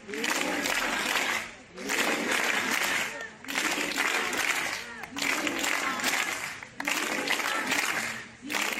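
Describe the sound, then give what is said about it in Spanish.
Crowd applause at a vigil rally in Benicàssim: dense, sustained clapping that swells and dips in several waves, loud throughout with only brief lulls between surges. “te presento el sonido de ayer de la concentración por la Asociación de Dones Progresistas de Benicàssim, el sonido de los amigos,”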